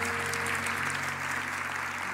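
Audience applause in praise of the Lord: steady, dense clapping from many hands that holds an even loudness throughout, with no talking over it.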